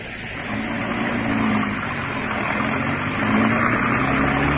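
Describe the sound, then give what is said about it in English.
A car driving off makes a steady, low engine rumble that swells slightly louder toward the end, with no voices over it. “Now drive us to the spot, Benji.”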